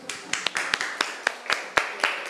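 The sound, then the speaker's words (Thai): Classmates in a school class clap for a student. Scattered, separate handclaps come at an uneven rhythm and stay fairly faint rather than building into full applause. “ครับปรบมือให้เพื่อนหน่อยครับ”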